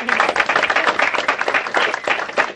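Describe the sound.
An audience applauding to welcome a speaker to a lunch talk: dense, brisk, continuous clapping from many hands, steady and fairly loud throughout.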